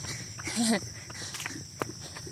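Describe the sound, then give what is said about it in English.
Footsteps of a person jogging up a hill, a few soft, irregular footfalls over a faint, steady background, with one sharper step standing out near the end. “And jog. Ooh, running up a hill for your last stride is not fun.”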